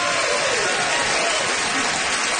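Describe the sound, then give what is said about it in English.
Applause from a live show audience at the Gas Station Theatre in Winnipeg: a loud, dense, continuous wash of clapping that holds steady throughout. “Honestly, Winnipeg, your applause is all the recognition we need.”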